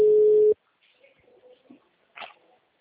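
A telephone busy tone after a dropped call, one steady, loud beep cut short, followed by faint scattered low sounds.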